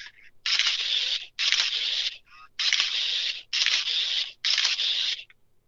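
Camera shutter firing in a continuous burst with the button held down, giving five rasping, hissy bursts in quick succession, each under a second long, at a fairly faint level.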